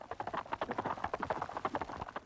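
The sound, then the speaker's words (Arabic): Horse hooves clip-clop steadily as the horse pulls a cart to a village mayor's house, a fast run of many sharp, even hoofbeats with no voices. “هيس هيس يا حصان.”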